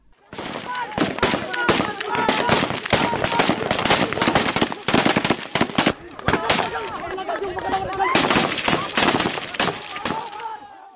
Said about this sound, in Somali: waxaana hal mar rasaasta ku kulminaya rag ka tirsan mujaahidiinta